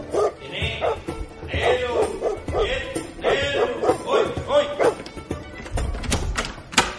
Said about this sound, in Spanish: El perro muerde. No, tranquilo. Es un perro robot. Solo chispea cuando se moja.